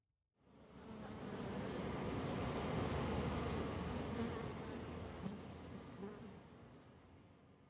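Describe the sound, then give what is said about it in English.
Honey bees buzz at hives in Oakland, California, during their midday orientation flight. A dense, continuous swarm hum swells in after a moment of silence and holds steady and loud, with a slight easing toward the end. “When I got to the hives that Ronni keeps a watchful eye on in Oakland, California, there was a daily ritual that occurs called the orientation flight.”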